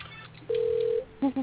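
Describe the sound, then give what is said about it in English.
Telephone line being dialled and ringing: a steady electronic tone held for about half a second, then after a short gap two brief, clipped beeps in quick succession. “So we'll have a little bit of a dead space while we're ringing Jules' line here, so hang on just a minute.”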